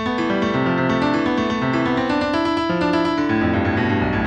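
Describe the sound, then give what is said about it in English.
Many rapid synthesized musical notes, one per week of US coal production at ten weeks a second, pitch rising and falling with output; a dense, steady, loud harmonic stream that jumps up and down without settling. “play a single musical note for each week. The higher the pitch of that note, the higher the coal production.”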